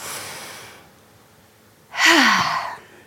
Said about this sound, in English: let me just take a big deep breath.